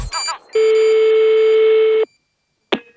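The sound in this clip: A telephone tone sounds after a brief burst, holding steady at one pitch for about one and a half seconds before stopping abruptly. A short, sharp noise follows after a pause.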